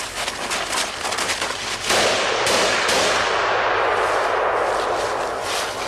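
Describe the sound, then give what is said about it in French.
A military rifle fires in a forest. Many loud, sharp cracks come in quick succession and run together into a dense, continuous wash of noise. “Ça craint pas comme ça, là, de tirer à l'arme de guerre euh, Bah, on va tirer dans cette. dans une forêt On va tirer dans cette direction.”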